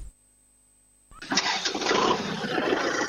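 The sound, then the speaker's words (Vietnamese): A Kubota tractor engine, working for days amid flood debris on a mountain highway, starts after a second of near silence, catching abruptly and settling into a loud, rough, steady running clatter. “có một âm thanh gần như không ngơi nghỉ suốt 3 ngày qua. Đó là tiếng động cơ của chiếc máy cày Kubota màu”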